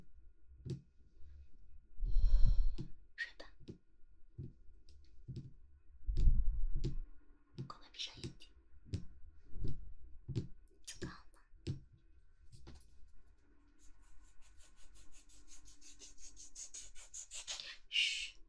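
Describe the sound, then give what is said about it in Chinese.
Small wooden blocks clicking and rubbing, many soft knocks and taps in an uneven rhythm, with a quiet whispering voice at times. “姐姐买了一些小木块，还挺解压的，声音也挺好。”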